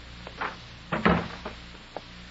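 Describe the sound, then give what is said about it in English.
A door closing at a warehouse: a few soft knocks, then one heavier, fairly faint thump near the middle and a lighter knock after it, with no talk. “Close the door.”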